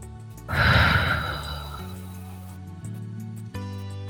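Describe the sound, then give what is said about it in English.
A slow, deep exhale at the close of a guided meditation swells to a breathy rush, then fades over about a second, over soft, steady, sustained music tones. “And with one final deep inhalation, inhaling deeply, slowly exhaling out, letting all of the air out.”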